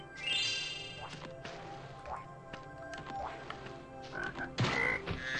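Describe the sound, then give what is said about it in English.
A frog croaking in a Mario video game: brief, quiet croaks among other game sound effects, soft thuds and chirpy tones. “Oh, there's a frog there.”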